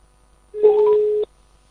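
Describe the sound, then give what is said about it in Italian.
A phone call being placed gives off a single steady electronic telephone tone, lasting well under a second at one even pitch, with no talk around it. “Un attimo solo, stiamo già effettuando la chiamata.”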